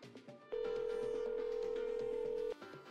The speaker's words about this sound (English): Let's dial them in.